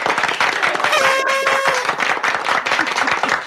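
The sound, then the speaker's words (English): Novelty beer horn sound effect played as a fanfare to welcome a guest: a brief, mid-pitched horn blast over ongoing clapping and crowd noise. “I threw in the beer horn.”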